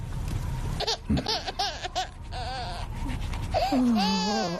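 A baby cries in a run of short, wavering, high-pitched wails separated by brief gaps, ending in a longer, steadier cry.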